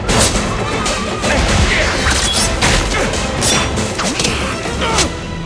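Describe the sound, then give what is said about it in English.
A machete hacks at a tangle of vines in a loud, rapid series of sharp whacks and slashes that blur into a continuous, crashing clatter. “Clayton attacks with a machete. Tarzan falls into a tangle of vines. Clayton hacks at them.”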